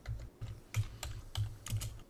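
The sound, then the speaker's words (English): Typing on a computer keyboard as an email address is entered: quick, crisp keystroke clicks arriving in several short bursts with brief pauses between them, fairly soft and heard alone with no voices. “Is there just a way to search messages from an email address? Yeah, just type the email address in the search bar at Google.”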